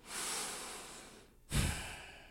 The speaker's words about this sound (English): I ride my breath like a manta ray. I simply breathe.